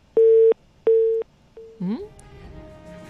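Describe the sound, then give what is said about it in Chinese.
A telephone line tone sounds while a call is trying to connect: two loud, steady, mid-pitched beeps and a brief third one. A voice follows. “那么导播示意呢，现在周伟指导的电话已经在线上了，我们马上来和他进行连线。”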